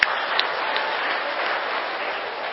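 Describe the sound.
Audience applause at a Buddhist teacher's dharma talk, a brief, even burst of clapping that starts sharply and stays steady throughout.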